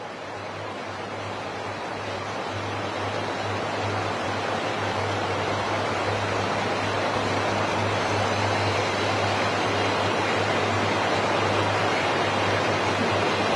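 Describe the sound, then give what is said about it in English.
Heavy rain pours down during an outdoor race as a constant, dense hiss that holds at an even level for the whole stretch, with a low steady hum beneath it and no voices. “rain coming down as heavy as it is just makes things very uncomfortable. When the kit gets wet as well, it makes it a little heavier and make you feel rather uncomfortable and awkward in your stride.”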